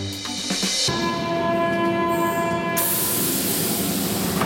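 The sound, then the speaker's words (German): A Berlin U-Bahn underground train at a station, a loud steady rumble joined after about a second by a sustained electric motor whine that holds to the end. “Ihr hört das hier im Hintergrund. Wir sind mit der U-Bahn bis Platz der Luftbrücke gefahren”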